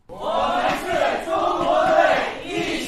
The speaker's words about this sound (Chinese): 在现场嘉宾及参与者的加油助威声中